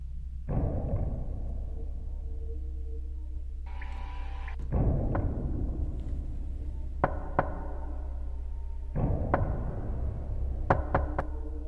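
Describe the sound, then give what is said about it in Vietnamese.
Knocking sounds again and again at intervals: a few dull, heavy thuds followed by sharper, quicker raps. Each burst is separated by a pause, and a steady low hum runs underneath throughout. “Tiếng gõ như đang thôi thúc cô đứng dậy, cứ chốc chốc lại vang lên.”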